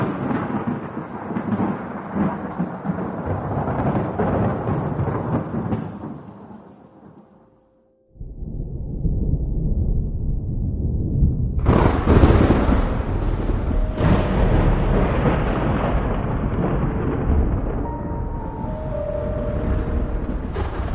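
Heavy thunder from a powerful lightning strike on a stormy night. It begins as a long, deep rolling rumble that fades almost to silence, then a new loud rumble breaks in with a sharp crash and keeps roaring.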